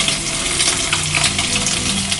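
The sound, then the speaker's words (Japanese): An egg sizzles loudly as it drops into a smoking-hot frying pan among bacon. The frying hiss and crackle is dense and continuous, with no talking. “フライパンから煙がで上がるぐらいフライパンを熱くしたところで卵を”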